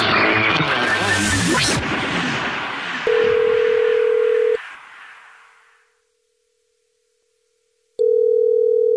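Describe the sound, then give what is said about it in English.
A telephone line tone sounds as a call is placed back to a listener, with two steady, single-pitched electronic tones separated by a stretch of silence. “So now we're calling you back”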